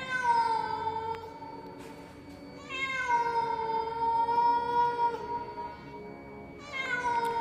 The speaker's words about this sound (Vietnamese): Tiếng con mèo ở đâu kêu lên nghe não lòng kinh khủng, từng hồi quanh quẩn trong ngõ.